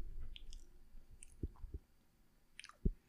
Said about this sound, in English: Eating a smoky hard boiled egg. ASMR style.